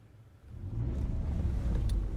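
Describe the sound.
Car engine rumble as a car pulls into a courtyard to park. The low, steady drone swells after about half a second and holds evenly to the end, with no voices.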